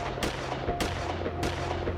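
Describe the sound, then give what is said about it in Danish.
Gunshots from an automatic weapon on a city square in the evening: three sharp, loud cracks spaced roughly half a second apart over a steady low background hum. “Kort efter flænses aftenstilheden af 4 skud af et automatvåben.”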